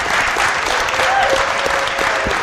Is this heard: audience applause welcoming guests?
yes